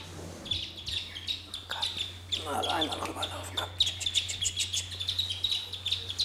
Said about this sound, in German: Deswegen scheuche ich jetzt die Küken mal rüber. Ja, kommt mal her. Die Zwerge sind 3 bis 6 Tage alt.